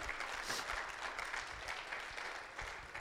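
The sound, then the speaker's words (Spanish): A church audience applauding: dense, even clapping from many hands that holds steady through the whole short stretch without a break. “Give the Lord a hand if you believe it.”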